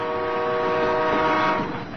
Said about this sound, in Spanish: ¿Es el tren?, preguntó el forastero.